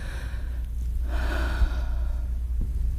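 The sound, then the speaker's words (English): An audience takes one big collective breath at a church worship service, a soft, broad rush of air that swells and then eases over a low, steady hum. “Now, y'all, let's just take it all in. Take one big breath with me”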